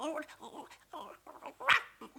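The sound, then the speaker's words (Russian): A voice imitating a puppy's barking: a few short, fairly faint yapping bursts, the loudest and sharpest one near the end. “Стой! Лаять буду!”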